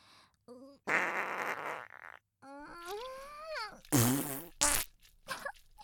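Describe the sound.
Several farts: loud, raspy bursts of varying length, some with a wavering tone.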